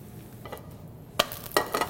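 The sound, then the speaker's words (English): A pinto bean quesadilla fries in a pan with a touch of oil, giving a soft, steady sizzle broken by a few brief, louder crackling bursts, with no talk. “So we're gonna cook it about 2 minutes on each side. We'll flip it over”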